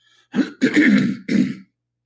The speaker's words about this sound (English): Pardon my throat clearing.